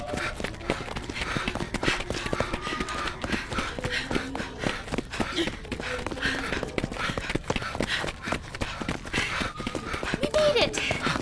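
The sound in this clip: People run away through a cave in hurried footsteps, a rapid, continuous patter of many steps with short breaths and voices calling out now and then.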